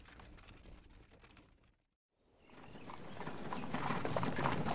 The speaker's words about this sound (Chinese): 奉着圣旨的人已在马车里晃荡着出了京城。